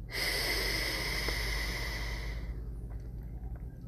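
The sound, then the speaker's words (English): A long breath is drawn in through the nose as a soft, airy hiss lasting about two and a half seconds, then it fades to near quiet. “Breathe in through the nose.”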